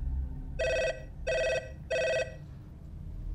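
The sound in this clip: A telephone rings three times in even, evenly spaced bursts of a bright bell-like tone, with quiet gaps between rings and faint background noise throughout.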